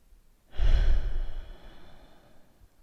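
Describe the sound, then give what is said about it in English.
A single deep breath taken during a seated relaxation practice: a long, full, airy rush that swells suddenly, holds for about a second, then thins to a soft fading tail, with no talk. “I noticed some shallowness in my breath, so just taking a moment to deepen the breath.”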